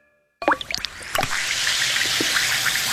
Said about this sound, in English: Hear that? That's Alka-Seltzer, the sound of fast heartburn relief.